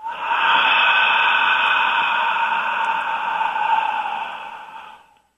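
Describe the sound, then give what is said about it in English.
During a breathing exercise, a long, airy exhale through the mouth on an H sound rushes steadily for about five seconds, breathy and fairly loud, then tapers off at the end. “Blowing the air out the mouth. And inhale through the nose. Exhaling out the mouth on an H.”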